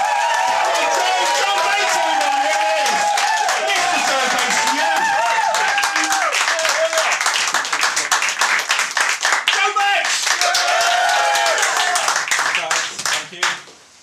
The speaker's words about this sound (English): I want him to hear a massive welcome as he comes on. Is that okay, everyone? So when I count to three, go nuts, I'll bring him on.